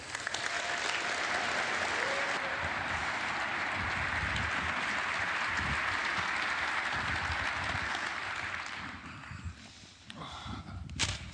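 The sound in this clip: An audience gives loud, sustained applause to welcome the Searchlight Theatre Company, a dense, even roar of clapping for about nine seconds that then thins out into a few scattered claps.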